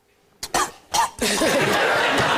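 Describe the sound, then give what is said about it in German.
A man coughs in a few sharp, loud bursts, then breaks into a sustained rough, harsh stretch of coughing and voicing that runs to the end. “Ja, er hustet ja schon.”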